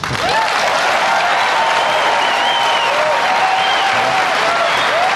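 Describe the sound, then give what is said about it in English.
Standing-ovation applause from a Fox News primetime town-hall audience, dense and steady from start to finish, with a thick wash of many clapping hands at an even, loud level. “That is the sound of a standing ovation for an openly gay man running for president on Fox News in primetime.”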